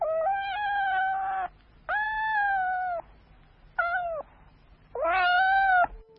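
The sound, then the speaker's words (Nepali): A cat meowing loudly while fleeing a house fire to the neighbours' homes: four drawn-out, tonal meows with a wavering pitch. The third is noticeably shorter, with brief gaps between the cries. “बिरालो कराउँदै छिमेकीहरूको घरमा पुग्यो।”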